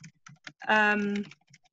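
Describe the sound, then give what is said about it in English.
Light key clicks from typing on a computer keyboard into a chat box, scattered before and after a brief sustained voiced hum. “So actually, in fact, I can write that in the chat box for everyone.”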